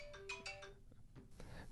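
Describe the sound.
A phone ringtone plays a few short, bright chiming tones, fairly faint over a low background hum.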